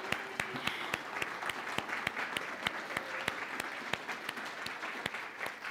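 Warm audience applause for performers of uplifting original piano music in Santa Fe, a steady bed of clapping with many distinct sharp individual claps standing out throughout.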